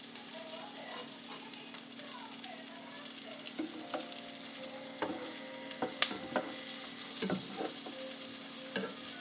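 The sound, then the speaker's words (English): Food sautéing in a pan over low heat gives a faint, steady sizzle and crackle, broken by scattered sharp clicks and scrapes from stirring. “I'm just gonna let these saute a bit.”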